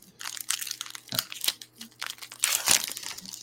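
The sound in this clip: Crisp crinkling and crunching of a trading card pack wrapper being torn open, in irregular bursts of rustling plastic over a few seconds, with no voices.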